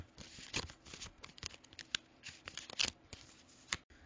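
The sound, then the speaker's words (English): Cards being shuffled and one drawn from an Everyday Witch Tarot deck, heard as many quiet, quick papery riffles and crisp snaps, with a few sharper flicks standing out alone. “Now, since I'm a tarot enthusiast, I thought it might be fun to pull a card and see what message it has for us here in the Witch Hut. And I'm just going to use my Everyday Witch Tarot by Deborah Blake.”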